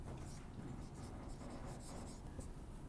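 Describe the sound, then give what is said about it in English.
Writing on a board with chalk or marker, a steady dry scratching and scraping that runs unbroken at an even level, with no clear pauses. “So if I write that on the board”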